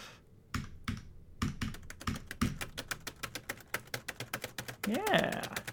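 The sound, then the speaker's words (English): Rapid typing on a computer keyboard, both hands smashing the keys with paw-like strokes, produces many sharp clicks that start sparse and grow into a fast, uneven clatter. A short voiced sound rises briefly near the end. “For those of you that don't know how I type, I basically take both of my hands and make little, like, cat paws with them, and then smash the keyboard really rapidly.”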